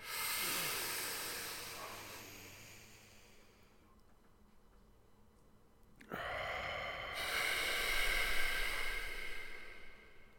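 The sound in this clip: A deep breath drawn in, heard as a long breathy rush of air that fades away, then after a quiet pause another loud, sustained hiss of air.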